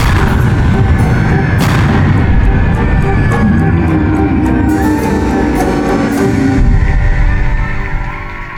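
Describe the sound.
Heavy gunfire roars almost without a break after an order to open fire: a dense, loud barrage of rapid shots and booms with crackling bursts, easing off near the end.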